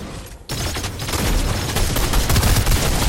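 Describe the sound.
Video game gunfire from a double-shot weapon: after a brief quieter opening, a loud, dense barrage of rapid shots begins abruptly and continues steadily to the end.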